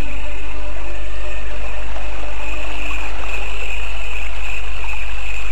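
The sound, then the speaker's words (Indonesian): River water flows with a loud, steady rushing hiss that continues unbroken from start to finish. “ia bangkit dan berjalan ke sebuah sungai yang tak jauh dari tempat itu”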